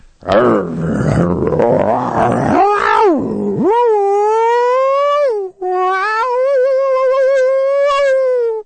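A man imitates wild animal howls during a howling contest: rough, growling noises at first, then two long, loud, sustained tonal howls with wavering, rising-and-falling pitch, separated by a brief break.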